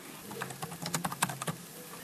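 Computer keyboard typing as an answer is entered into an online chat pod, a quick irregular run of light keystrokes clicking faintly on their own.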